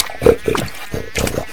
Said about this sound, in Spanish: Más tarde pasó por ahí don Gervasio rebotando de las aguas puercas, el cerdo más importante del lugar